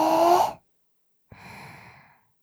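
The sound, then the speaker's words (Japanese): Deep breathing in through the nose and out through the mouth during a guided relaxation exercise: two soft, airy breath sounds separated by a moment of silence. “鼻からお腹いっぱいに息を吸って、その後ゆっくり口から吐き出してね。”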